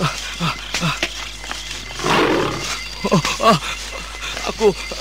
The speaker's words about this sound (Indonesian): Harimau. Moga-moga harimau itu tidak mencium bau manusia. Kesebelah sana saja aku menghindar. Suara harimau itu ada di depanku.